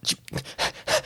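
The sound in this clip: Heavy, rapid panting from someone running up: a few quick, breathy gasps in close succession, loud and heard alone.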